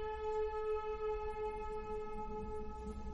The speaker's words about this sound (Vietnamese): Xe cảnh sát vào trong thôn, tiếng còi hú inh ỏi cũng chẳng lọt vào trong tai.